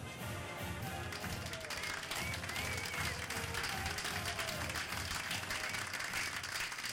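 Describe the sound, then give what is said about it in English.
A studio audience applauds at the opening of a Wyoming Cowboys college football roundtable show. The clapping is faint but dense and even, a steady patter of many hands throughout. “That's the studio audience there.”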